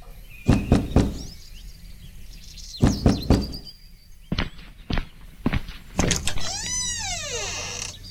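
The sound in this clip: Knocking on the door of a small cabin: several sharp knocks in short clustered series with pauses between, followed by a wavering, warbling tone at the end.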